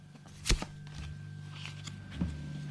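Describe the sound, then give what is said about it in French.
A card drawn from a deck, with a crisp papery snap followed by soft sliding and a second, gentler flick later, all faint and unaccompanied by talk. “Je tire une carte.”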